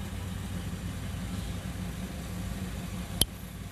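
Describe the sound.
Road traffic with cars idling in a slow single-file lane: a steady, unbroken low engine rumble, with one brief sharp click near the end.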